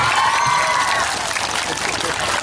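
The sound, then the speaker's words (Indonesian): Audience clapping and crowd noise at a religious talk event, a steady wash of applause throughout. “Tepuk tangan dulu dong.”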